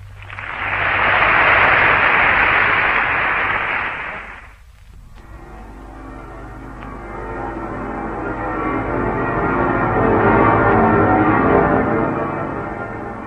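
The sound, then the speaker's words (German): Bells of Stuttgart's church towers ring out across the city during a rally of Germans from abroad. About four seconds of loud, dense hiss come first, then a sustained wash of overlapping pealing tones swells and lingers. “Von allen Türmen entbieten die Glocken der Stadt den Deutschen jenseits der Grenzen ihren ehernen Gruß.”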